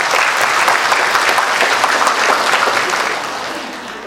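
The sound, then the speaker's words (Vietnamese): Dense applause from a Buddhist gathering welcoming devotees back after three years away. A steady wash of many hands clapping holds strong, then tapers off over the final second. “Chúng ta xin cho các Phật tử thân thương của thầy Thông Lai sau 3 năm xa vắng một tràng pháo tay.”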